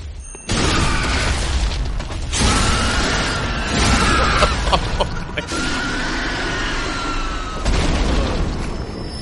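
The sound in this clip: Visceral attack sound effect from a video game: a dense, loud run of heavy booming impacts and crunching bursts over a sustained rumbling roar, with no voices.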